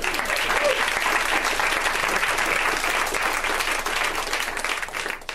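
Audience applause at a live show for a man just acknowledged from the stage: dense, sustained clapping, loud throughout and easing slightly at the end.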